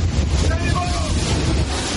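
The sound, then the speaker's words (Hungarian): Strong wind rushes over a microphone above rough water on Lake Balaton, where water rescuers are helping a boat in trouble. The roar is loud and continuous over a deep, steady rumble. “Ez pedig már a Balaton. Éppen egy bajba jutott járműnek segítenek a vízimentők.”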